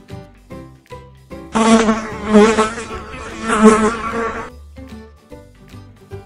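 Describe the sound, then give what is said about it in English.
A fly buzzes loudly for about three seconds in a steady, droning hum that wavers slightly, with quieter sounds before and after it. “Fly.”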